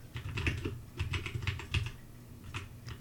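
Rapid typing on a computer keyboard while entering a search: fast runs of sharp plastic key clicks in uneven bursts with brief pauses, and no voices.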